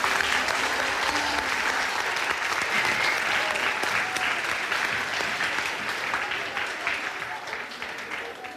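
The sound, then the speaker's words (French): Adolescents in the middle school the speaker attended as a child give a standing ovation: dense, continuous applause that stays loud and steady for about eight seconds, then thins slightly near the end. “Et finalement, dans le collège de son enfance, il s'adresse à des adolescents attentifs et très accueillants qui lui réservent une ovation.”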